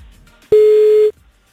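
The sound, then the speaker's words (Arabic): A telephone tone while placing a call, one steady electronic beep lasting about half a second, loud and alone, with near silence before and after. “خلينا نتصل بأحمد”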